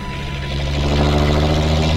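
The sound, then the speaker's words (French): A coach's engine drones as it speeds through city streets. The low, continuous rumble carries a steady harmonic hum and swells slightly toward the end, with no voices. “L'autocar roule vite. Il attaque les virages à droite, à gauche. Il bondit dans les rues.”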